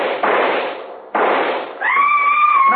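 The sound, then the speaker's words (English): Rifle shots in a radio drama: two sharp, loud cracks with rough, fading tails about a second apart, the second one followed by a sustained whining tone. “I was taking no chances. I raised my rifle and...”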